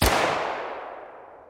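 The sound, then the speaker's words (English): A single pistol shot is fired in a crowded theater. It is a sharp, loud crack that fades slowly into a long, decaying tail. “Booth stepped forward and raised his pistol. "Ever thus to tyrants."”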